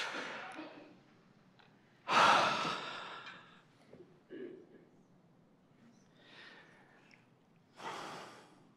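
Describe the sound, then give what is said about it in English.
Deep breaths are drawn and let out, with two loud, breathy rushes and a few faint breath sounds between them. “Now let's just all take a deep breath, okay?”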